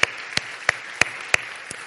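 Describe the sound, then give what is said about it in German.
Six sharp hand claps, evenly spaced at about three per second, follow a call for applause to welcome a guest at a gathering. The claps are crisp and steady, and the last one is fainter. “Gib mal einen großen Applaus.”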